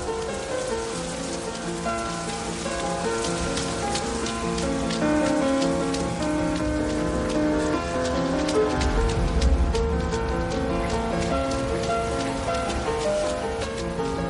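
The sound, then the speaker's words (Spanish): Steady rain falls through a forest, a dense, continuous patter of drops with an even, loud hiss from start to finish and no voices. “Llueve.”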